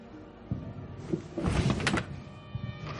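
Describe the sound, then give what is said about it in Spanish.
A desk drawer in an office slides open and shut with a short scraping rumble and a few light knocks, fairly faint and without talk. “Se acerca al escritorio y abre un cajón.”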